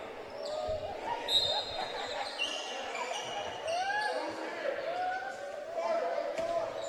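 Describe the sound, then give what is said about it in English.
A basketball is dribbled on the court during a game, its bounces sounding under a commentator's voice and a faint crowd. “Chapman Harris dribbles the ball up with the left hand.”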